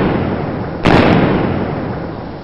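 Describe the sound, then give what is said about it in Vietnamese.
A gunshot fired during a street confrontation, heard as one sharp, loud bang that rises abruptly from a steady background hiss and decays over about a second. Only one shot is clear. “chàng cũng quay phát lưng lại và bắn ngược lại sau luôn hai phát.”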